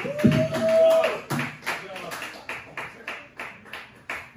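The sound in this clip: Audience members at a comedy show applaud the host, a steady run of many distinct claps at an even pace, fairly sparse rather than a dense roar.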